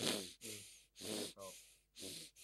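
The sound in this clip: A voice imitates heavy, tired breathing: a few slow, drawn-out breaths with a hoarse, groaning tinge, rising and falling in steady alternation, faint and without words.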